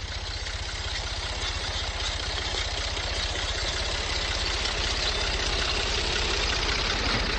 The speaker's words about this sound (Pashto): دلته کې څنګه تاسو وینئ ټریکټر تاویږي، مرګرې چې دی لګیا دی، هغه غنم شیندي.